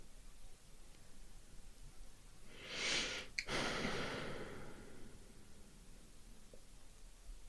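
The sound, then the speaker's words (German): A single deep breath, soft and airy, swells and fades over about a second against a quiet, steady hiss. “Gerade als ich in dieses Nachspüren reingegangen bin, da ist nochmal so ein tiefer Atemzug gekommen.”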